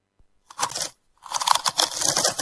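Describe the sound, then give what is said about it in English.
Frimax potato chips being crunched in the mouth: a short burst of crisp, crackly crunching, a brief pause, then a longer, louder run of bites and chewing. “these Frimax chips are so tasty.”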